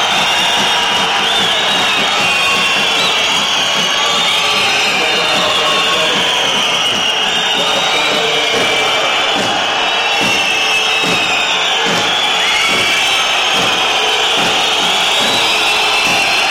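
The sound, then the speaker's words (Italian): An agitated basketball arena crowd roars loudly and without a break during an Italian league game, a dense, steady wall of voices and noise. “Forse ha detto qualcosa al pubblico Cristo, perché credo della valle, perché il pubblico è un attimo fervorato.”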